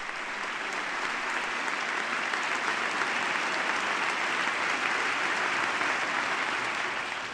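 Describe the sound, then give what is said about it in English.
Applause fills the chamber of Congress as an eighth grader from South Carolina stands to receive it. The clapping is dense, steady and even throughout, with no voices standing out. “She's standing to receive the applause of the chamber.”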